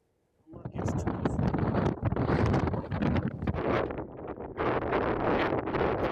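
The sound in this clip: Blizzard wind sweeps across eastern Anatolia, where a snowstorm has closed village roads. After a brief silence it bursts in suddenly as a loud, rough roar and keeps buffeting in gusty waves to the end.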